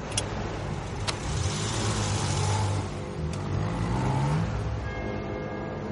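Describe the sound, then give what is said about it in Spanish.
A car arrives at the Basque border crossing with a steady engine and road rumble that swells and eases. A couple of brief sharp clicks cut through. “Mientras, un coche llega a la frontera vasca.”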